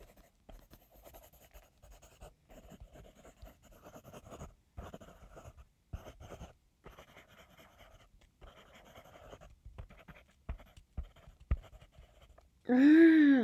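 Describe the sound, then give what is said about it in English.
Pen scratching on paper while writing a letter by hand: many faint, irregular strokes and taps in uneven bursts, ending with a short vocal sound. “I'm going through all this effort to write him this stupid letter.”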